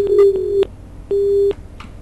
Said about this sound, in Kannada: ದೂರವಾಣಿ ಸಂಪರ್ಕ ಕಡಿತಗೊಂಡಿದೆ.